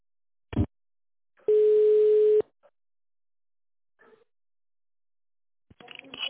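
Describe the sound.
A single steady telephone ringback tone sounds for about a second while a call is being connected to a tender department specialist. A click comes just before it, and faint speech begins near the end.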